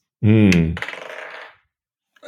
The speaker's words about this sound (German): Nächste Würfel-Action. Ich würfle für Alex.